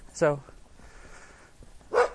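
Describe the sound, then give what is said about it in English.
Two short, high-pitched barks from a small dog as someone walks past trash cans, one near the start and one near the end, with faint low background noise between them. “Hi, little doggy.”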